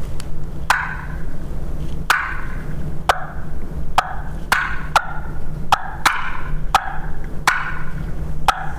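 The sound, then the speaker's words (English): Imitated turkey clucks of a hen and a gobbler, made by a person who changes only hand position to alter the tone. A long series of sharp, abrupt, loud clucks at uneven intervals, with no talk over them. “I can change nothing but my hands and try to sound like, I don't know, a hen and a gobbler clucking”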